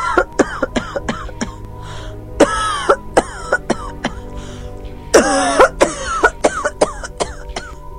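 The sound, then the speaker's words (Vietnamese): An older woman's violent coughing fit: many sharp, harsh bursts, with two longer, louder rasping spells partway through and near the middle. “bỗng lên cơn ho dữ dội.”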